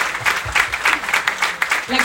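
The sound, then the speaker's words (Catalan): An audience applauds a team at a community event, the claps pulsing in quick, rhythmic bursts with voices talking over them. “Així que un aplaudiment pel seu equip. Aplaus, aplaus.”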